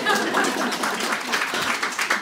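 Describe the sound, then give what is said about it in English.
Audience applause for a woman guest: a dense, steady wash of clapping that holds at an even level for the whole stretch without breaking. “Give a round of applause to this lady.”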